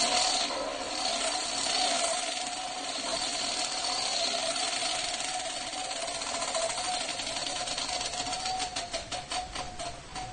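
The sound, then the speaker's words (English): A prize wheel spinning, with a run of rapid, regular ticks near the end over a steady, noisy whirring background. No one talks. “I can spin the wheel. You'll let me do that? Let's see what happens.”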